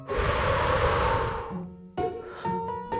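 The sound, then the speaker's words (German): A deep breath in and out, with a long, loud, airy exhalation lasting over a second before fading, followed by quieter, shorter breath sounds. “Lass das mal zusammen machen. Richtig tief. Einatmen. Ausatmen.”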